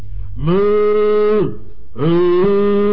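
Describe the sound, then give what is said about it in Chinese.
A cow moos twice, each a loud, drawn-out, tonal call lasting about a second, separated by a brief pause. “这牛叫上了”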